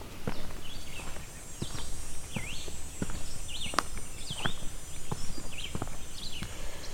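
Footsteps of a person walking outdoors, a steady, even run of many crisp footfalls at a relaxed pace, with high bird chirps scattered over the top.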